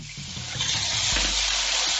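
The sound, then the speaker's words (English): Water is poured into a hot pan oiled with vegetable oil and holding browning shumai dumplings, making a loud, steady hissing sizzle that swells partway through and holds strong to the end, with no talk. “We're going to add our shumai dumplings onto the pan. As soon as the bottom is nice and brown, you want to add your water”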